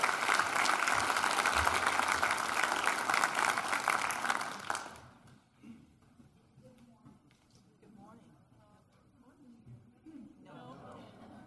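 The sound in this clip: Audience applause welcoming a speaker at a morning talk: dense, steady clapping for about five seconds, then it quickly fades, leaving quiet background with faint voices.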